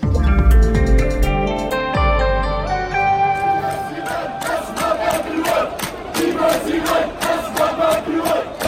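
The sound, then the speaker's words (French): Street protesters in Algeria, demonstrating in the evening against the hydrocarbons law, chant in rhythmic pulses after an opening of loud sustained tones; the massed voices keep a steady, repeated beat. “votre bruit du monde est une manifestation en Algérie ce soir, mais une manifestation avec un mot d'ordre un peu différent de ces derniers mois. Cette manifestation défend le pétrole, l'or noir du pays. Oui, ces Algériens protestent contre la loi hydrocarbures.”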